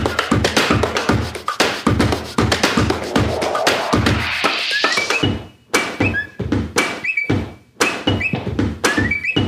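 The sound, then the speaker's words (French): Chairs, armchairs and sofas tapped, moved, dragged and made to creak as a musical piece: a fast, steady rhythm of hollow thunks and taps, then sparser thuds mixed with high, squeaky creaks. “il a composé un morceau rien qu'avec des bruits de chaises, fauteuils et canapés qu'il a chez lui, en tapant dessus, en les faisant bouger, en les traînant ou en les faisant grincer.”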